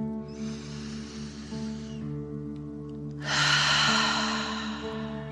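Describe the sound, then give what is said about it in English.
Forceful dragon-breath exercise breathing, done as slow deep breaths in and out through the mouth. There are two long, rushing breaths, the second louder and harsher, over a soft, steady musical drone. “pretending you are breathing fire. Ready? Deep dragon breath in and out.”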